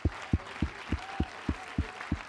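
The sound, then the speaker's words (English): A church audience clapping hands in unison, about seven sharp, evenly spaced claps at roughly three per second, with a faint murmur behind them. “If you love him, clap your hands and bless him.”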